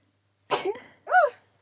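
A single sneeze in two bursts: a breathy, noisy onset, then a louder, voiced burst with a short pitched rise and fall. No talking.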